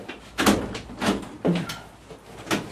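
A window being opened in a warm house: a few rough sliding and scraping bursts in an uneven rhythm, fairly loud, with no talk.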